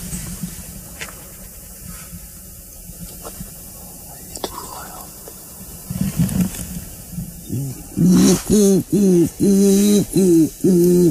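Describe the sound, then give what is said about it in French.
A human voice imitating a wood pigeon's call: several low, rhythmic, hooting coos repeat loudly in an even pattern near the end, after stretches of soft murmured talk and whispering. “Il a qu'à imiter la palombe, c'est ça, pour elle être en confiance. Bon, la chante, quoi.”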